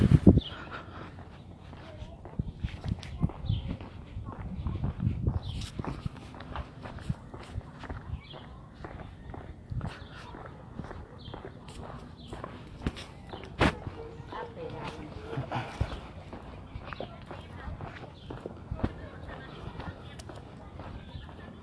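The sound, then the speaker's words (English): Footsteps of a person walking, a long run of steady, even steps with soft scuffs, continuing at a moderate level throughout. “I'm just walking there right now”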